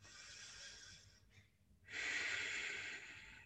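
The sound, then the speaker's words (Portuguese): Deep breathing during a guided relaxation, with two long airy breaths: a softer one, a short pause, then a louder, fuller inhale that holds steady before easing off. “Podes inspirar mais uma vez.”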